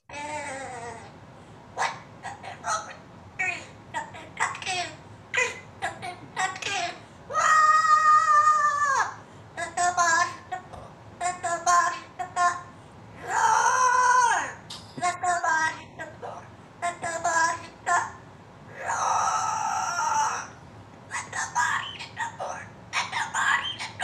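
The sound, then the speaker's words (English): A pet parrot kept in a home screeches along to a heavy metal song, imitating its sung and screamed vocals. Harsh, tonal squawks come in many bursts over about twenty-four seconds, several of them drawn out into longer sustained screams. “one of the parrot families that's a pet in someone's home who learned to sing”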